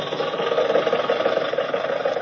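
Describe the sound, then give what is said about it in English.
A car engine runs steadily as travellers drive toward Chicago. The hum is loud and continuous, with a slight rough flutter and no change in pitch. “While Bing and Bob are driving to Chicago and getting acquainted with each other”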